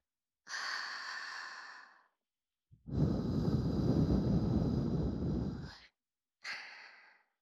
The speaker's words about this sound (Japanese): お耳ふうふう大好きだもんね。